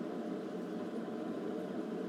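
A microwave oven hums as it warms water, giving a steady, even drone that holds at one level throughout, with no talking.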